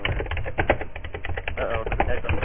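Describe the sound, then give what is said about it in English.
Typing on a keyboard: many rapid, irregular keystrokes with a muffled, somewhat faint clack, continuing steadily throughout. “Who's typing? Don't type.”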